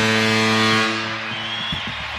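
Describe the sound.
Foghorn blast at a hockey arena as the final seconds of a game run out, a loud, steady, low and harmonically rich horn tone that holds for over a second before easing off.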